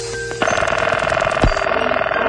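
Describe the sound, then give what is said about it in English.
A 1970s telephone ringing: a rapid, buzzing electric trill holds loud and steady through the whole short clip. No one speaks. “Here's a collection of telephone sounds of the 1970s.”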